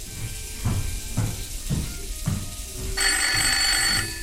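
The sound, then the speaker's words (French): A telephone rings at a gangster's home, coming as a steady series of repeated pulsing rings; near the end the ringing turns brighter, louder and more sustained. “Soudain, le téléphone sonne.”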